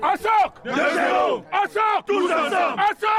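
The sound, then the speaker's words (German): Loud group battle cry from a visiting football team from Cameroon on a football pitch in Öhrenfeld before its first match, many voices chanting and shouting together in short bursts with brief pauses between. “Ein ungewöhnlicher Schlachtruf erklingt da auf dem Fußballplatz im Dahlingeröder Ortsteil Öhrenfeld.”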